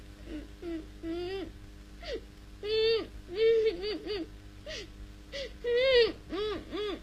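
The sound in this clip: A person cries in repeated whimpering sobs, each a high wavering wail that rises and falls. The wails come in short bursts with brief pauses between them, and some are louder and longer than others.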